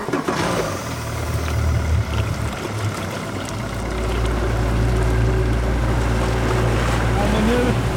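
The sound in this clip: A boat motor drones steadily while heading out across the glittering Gullmarsfjord off Fiskebäckskil toward a seaweed farm. Its low, continuous rumble grows fuller and louder about halfway through, then holds evenly to the end.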